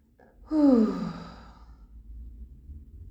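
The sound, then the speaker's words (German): A long exhale through the mouth with voice, a sighing tone that starts firmly and slides downward in pitch as it trails off into soft breath. “noch einmal durch die Nase ein und lang durch den Mund aus, wenn es für dich passt, auch mit Ton.”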